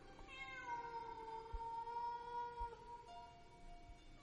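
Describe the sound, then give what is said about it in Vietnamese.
A stray cat meowing in a long, drawn-out wail that breaks off briefly and then resumes on a slightly higher pitch. The cry is faint and quiet throughout. “nghe như có tiếng mèo kêu ở đâu ghê quá”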